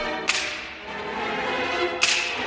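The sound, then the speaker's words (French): Two sharp, loud cracks of a percussion whip, presented among orchestral percussion instruments, spaced nearly two seconds apart over a steady low background. “Enfin, le fouet.”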